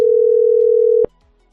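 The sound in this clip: A telephone call tone holds steady at a single pitch for about a second, then cuts off with a click into near silence.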